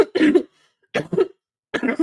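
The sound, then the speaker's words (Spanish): Coughing from a woman who is unwell: a few harsh, throaty coughs in short separate bursts, fairly loud and with brief silences between them. “¿Por qué me recuerdan que toso?”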